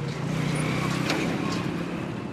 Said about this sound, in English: Trailer trucks shudder on their way to the base, passing Syed Khalid and Mahmoud Tahir's vegetable stand.